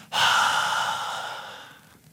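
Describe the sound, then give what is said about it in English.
A speaker imitates Jesus breathing on the disciples with one long, forceful exhale. It starts sharply as a breathy hiss and slowly fades over about two seconds. “But Jesus leans in and he breathes into their face and he says, receive the Holy Spirit.”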